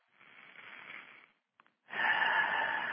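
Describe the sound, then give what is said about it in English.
A deep breath in and out during a guided attunement: a soft, airy inhale, a short pause with a faint click, then a louder, fuller exhale that runs to the end. “Let's take a deep breath.”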